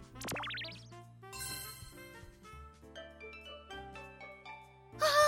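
Chiming pops and jingles from bubbles clearing in the mobile puzzle game Bubble Triple Crisis. A quick rising string of tones opens, then layered bright dings and plops follow, ending in a louder sparkling burst.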